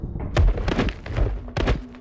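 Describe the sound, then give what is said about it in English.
A few dull, heavy thuds as a person collapses to the ground. The bumps are irregular and close together. “And she collapses to the ground.”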